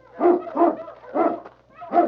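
A large dog barks in a snowy setting: four deep, loud barks in a slow, uneven series, with no talk over them.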